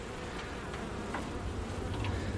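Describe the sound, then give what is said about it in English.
Honeybees buzz steadily as they are shaken off a frame of wire-free wild comb lifted from a Langstroth hive. The drone is dense and continuous, with a low hum throughout and no voices. “And this is a Langstroth hive. It's all wild comb, so there's no wire. Mm. I'm just going to shake the bees off a bit.”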